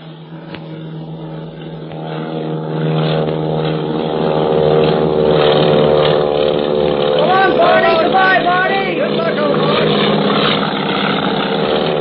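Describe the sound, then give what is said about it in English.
A propeller airplane engine drones as the plane takes off, banks and circles overhead. The steady, buzzing harmonic roar swells after a couple of seconds and then holds loud and continuous, with a slight wavering in tone later on. “Takeoff. You can sure tell Barney learned how to fly in the Army Pursuit Squadron. Hey, look, he's banking. He's going to come back and circle over us.”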